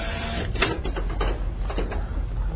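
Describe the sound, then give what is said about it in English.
Used digital copy machines run in a New Jersey warehouse, giving a steady, loud mechanical whir with a few brief pulsing bursts throughout. “A warehouse in New Jersey filled with 6,000 used copy machines ready to be sold.”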